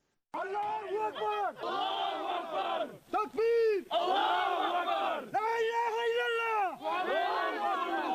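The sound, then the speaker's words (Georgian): Villagers in Jokolo, in the Pankisi Gorge, shout at arriving Georgian Interior Ministry special forces: many overlapping voices raise loud, drawn-out, chant-like cries in repeated surges, with brief dips between them. “ასეთი შეძახილებით შეხვდნენ საქართველოს შინაგან საქმეთა სამინისტროს სპეციალური დანიშნულების რაზმის მებრძოლებს ჯოყოლოს მოსახლეობა.”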